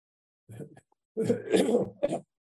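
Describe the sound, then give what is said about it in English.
Throat clearing to clear phlegm: a short rasping burst, then a longer, harsher clearing that ends in a sharp final push. No other voices are present. “Excuse me, I cleared that phlegm.”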